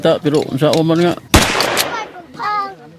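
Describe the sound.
A single sharp gunshot as a test shot is fired into a sand-filled barrel, a loud crack with a short decaying tail, preceded and followed by people talking.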